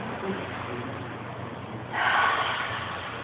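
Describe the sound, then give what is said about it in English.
A deep breath drawn in: one breathy, airy inhale swells up partway through over steady low background noise. “In fact, why don't we all take a deep breath?”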